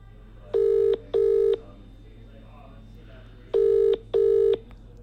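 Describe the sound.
Touch-tone telephone dialing beeps as a phone call is placed: four short, evenly pitched tones in two quick pairs, separated by a brief pause, over a faint steady hum.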